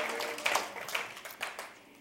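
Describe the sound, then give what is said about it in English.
Members of a church audience clap, producing moderate scattered applause with a few sharper claps standing out, thinning and growing fainter toward the end. “Good place to clap. Good place to clap.”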